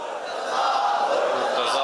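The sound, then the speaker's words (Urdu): A crowd chants religious slogans in praise of Hazrat Ali. The voices blend into a loud, sustained mass that swells after the first moment and holds steady to the end. “چلو نعرے لگا کر بھی حضرت علی کا ذکر کر لیتا ہوں.”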